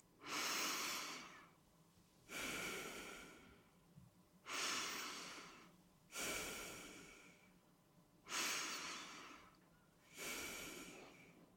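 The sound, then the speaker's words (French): Three deep, slow breaths, heard as six airy, rushing swells at an even, unhurried rhythm, each rising quickly and tapering off, fairly quiet and with no voices. “Prenez trois grandes respirations.”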